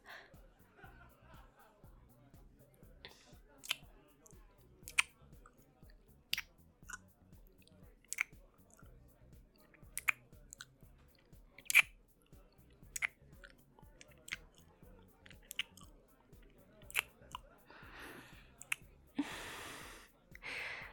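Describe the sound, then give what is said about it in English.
A person biting another person during a flirtatious, playful moment: many sharp, irregular mouth clicks and snaps over soft breathy vocal sounds, ending with a brief burst of rustling noise. “Taste even better than you smell. Yeah, I just bit you.”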